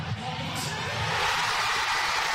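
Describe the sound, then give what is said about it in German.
Thousands of football fans cheer in central Oslo after Norway's World Cup win against Brazil, a broad roar of crowd noise that swells and grows louder toward the end. “Schon als Norwegens Mittelstürmer Erling Haaland in der 90. Minute sein 2. Tor gegen Brasilien schießt, ist der Jubel bei den tausenden Fans im Zentrum von Oslo groß.”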